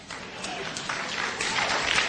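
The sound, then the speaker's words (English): Audience clapping at a church sermon, a steady dense wash of many hands that swells slightly louder toward the end, with no talk over it. “Come on, everybody, clap on that one.”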